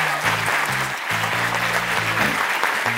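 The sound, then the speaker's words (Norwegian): At the close of an evening talk event, an audience gives a dense, steady wash of clapping that stays loud and even for the full three seconds. “Folkens, tusen takk for en veldig interessant kveld, og gi en skikkelig applaus til våre to Dag Mossige, Mimi Kristiansson,”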